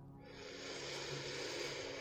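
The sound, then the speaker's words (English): A slow, soft inhale during a calm guided breathing exercise, a quiet airy hiss that swells gently over about two seconds. “Finding the calm within the chaos right here. Breathe in.”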